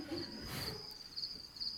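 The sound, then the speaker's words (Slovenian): Crickets chirp in a steady, high-pitched trill, with soft, pulsing chirps that carry evenly and faintly throughout. “Čričke pa šluši, no.”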